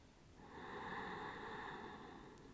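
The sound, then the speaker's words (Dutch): Deep breath drawn in through the nose during a guided breathing exercise, a soft, airy inhale lasting about two seconds, faint and alone with no talk. “Inademen via de neus.”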